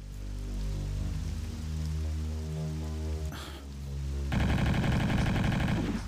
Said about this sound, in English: I started just hip firing into the room, and that apparently worked.